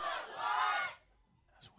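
A crowd of young people at a youth church gathering lets out a loud shout for about a second, which then cuts off into near quiet with only a faint stray sound.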